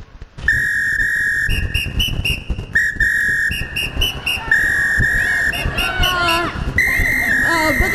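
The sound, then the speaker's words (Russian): A man whistles a tune in bright, high repeated phrases with short held notes. The melody rides over a steady music track with a thumping beat. “А мужчина продолжает насвистывать. Слушаем.”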